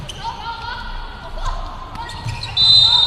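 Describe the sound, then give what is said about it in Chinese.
Volleyball serve struck by the Jiangsu team in a match against Shandong, a few sharp ball impacts sounding over a steady hum of crowd noise. “江苏队发球，十七号翟宇瑞好发球。”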